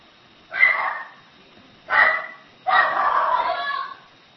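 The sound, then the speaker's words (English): A dog barks faintly, giving a few rough bursts, the last one drawn out longer than the first two. “You can probably hear the dog barking.”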